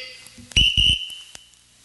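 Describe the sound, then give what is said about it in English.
A whistle blown once as a round signal in an audience beer-guessing game, giving a sharp, high, steady tone of about a second with a few low thumps at its onset. “now when I blow the whistle again”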